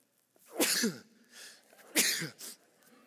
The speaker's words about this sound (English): There's always three, by the way. The holy sneeze, the trinity of sneezes.